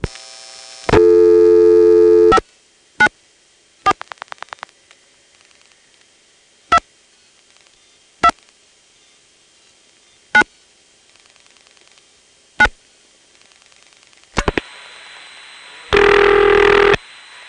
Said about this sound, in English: For example, here's how a call to 594, Noakesville, sounds when you dial it normally.